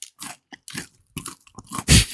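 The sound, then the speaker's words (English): A peanut butter Smart Bar protein chocolate bar is bitten and chewed, giving a few short, crisp crunches that build to one loud final crunch, with no talking. “Good crunch. Dude, this is so good. Oh, it's good? I've had a few of these Smart Bars, but I haven't had the peanut butter one yet.”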